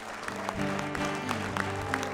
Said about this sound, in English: Come on, give the Lord a big hand of praise.